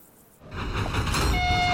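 A train carriage rumbles in, its low, noisy roar swelling in quickly after a quiet start and then holding steady, with a thin, high whine joining near the end.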